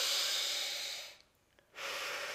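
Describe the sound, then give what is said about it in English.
A deep breath taken during a guided tapping exercise: a long, airy rush of breath, a brief near-silent pause, then another broad breathy rush, moderately loud and without talk. “Take a breath.”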